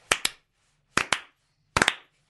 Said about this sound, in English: Can I just be the first to start the slow clap?